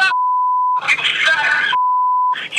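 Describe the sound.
Censor bleeps over swearing: two long, steady beeps at a single mid pitch, with bursts of a talking voice between and after them.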